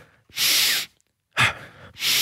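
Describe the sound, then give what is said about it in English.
Wim Hof style breathing, with big vigorous inhales and air let passively out of the mouth: three loud, airy breath sounds, two long and one short, separated by near silence. “Big inhale and let the air fall out of your mouth passively. So active, big, vigorous inhale.”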